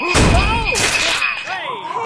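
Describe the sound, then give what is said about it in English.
Comedy sound effect of a ghost hitting someone with a Christmas chain: loud, dense crashing and thumping noise runs almost without a break, with a wavering, wailing tone sliding up and down over it. “Stop that, ghost! He's hitting me with his chain. His Christmas chain. He's attacking the studio.”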